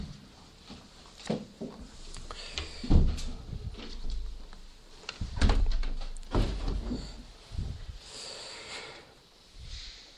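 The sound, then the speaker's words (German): Church windows being closed: a series of irregular thuds, knocks and sliding scrapes of moving frames, with breathy noises in between. “Jetzt können wir die Fenster wieder schließen”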